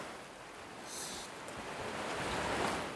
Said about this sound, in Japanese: また波の音。波は山を寄せて